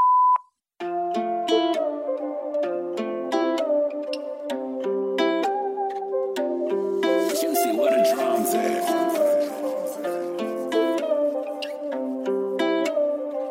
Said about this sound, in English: leave a message after the tone.